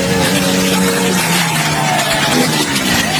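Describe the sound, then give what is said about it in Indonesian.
Vehicles street racing on a road at night roar through heavy, rushing engine noise, with engine pitch climbing toward the end as an engine revs. “Malam-malam gini suka banget ada balap liar. Kita sebagai pengguna jalan jadi terganggu.”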